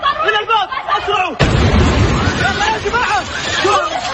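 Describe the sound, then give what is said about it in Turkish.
A sudden loud boom from a Houthi attack on King Khalid International Airport in Saudi Arabia is followed by sustained rumbling noise, with agitated voices heard before and after the blast. “Husiler, Suudi Arabistan'da bulunan Kral Halit Uluslararası Havalimanı'nı böyle vurdu.”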